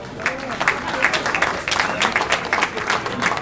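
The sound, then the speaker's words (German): An audience breaks into applause: many hands clapping in a dense, steady patter that keeps going, fairly loud, for the whole stretch. “Und dafür auch einmal ein herzliches Dankeschön und das ist euer Applaus.”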